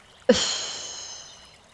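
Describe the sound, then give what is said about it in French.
A forceful breath during a chakra-focused breathing exercise begins with a sudden sharp onset, then trails into a long, hissing exhale that slowly fades over about a second and a half. “Inspirez, soufflez.”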